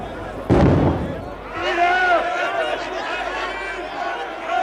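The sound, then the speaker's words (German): A single sharp, loud gunshot bursts out, followed by a sustained clamor of raised voices. “Die Tiefenbacher taten den Schuss.”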